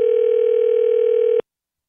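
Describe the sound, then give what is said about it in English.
Telephone ringing tone of an outgoing call to a California number: one loud, steady, unbroken tone that holds for over a second and then cuts off into silence. “I don't know if she'll answer or not because we're calling out so of the blue.”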